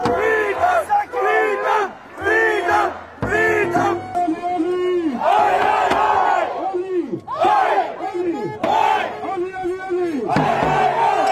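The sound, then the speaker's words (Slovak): A large protest crowd in Australia, demanding freedom of speech and choice, chants a typical Australian sports cry: many loud, rhythmic shouted bursts of massed voices repeating in waves with short gaps between them. “Takéto skandovanie bolo počuť v Sydney, Melbourne, Brisbane aj v Perte, kde tisíce ľudí žiadali slobodu prejavu a výberu.”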